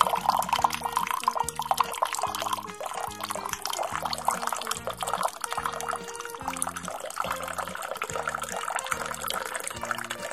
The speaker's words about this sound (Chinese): 你先再准备一点温开水37度的放进去